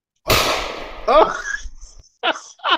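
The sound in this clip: One sharp, loud gunshot crack with a quick decaying tail, followed by people talking excitedly.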